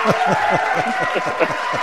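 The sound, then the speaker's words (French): An audience applauds guests at the close of a French-language show, a continuous even patter of clapping with a voice speaking over it. “Voilà, tout le monde vous applaudit. Bravo. Ils sont nombreux là.”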